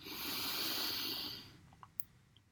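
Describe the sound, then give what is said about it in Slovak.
A deep inhale during a slow breathing exercise: a soft, steady, airy hiss that swells for about a second and a half, then fades into near silence broken by a few faint clicks. “Je, takže hlboký nádych,”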